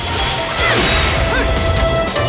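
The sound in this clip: Sword attacks clash and whoosh during combat in a side-scrolling section of an action video game, a loud, dense stream of crashing hits and swishes with no pauses.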